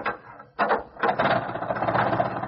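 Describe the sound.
An old car engine is hand-cranked and starts up: a brief rattling burst, a short pause, then loud, rapid mechanical clattering that keeps running steadily.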